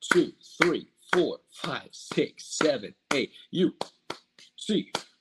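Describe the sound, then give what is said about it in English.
Hand claps from UCLA Bruins fans keeping a chant time: a quick run of sharp, dry claps mixed with voices sounding along, uneven in spacing and fairly loud throughout. “Get your hands up, Bruins fans, because it's 8 clap time, baby.”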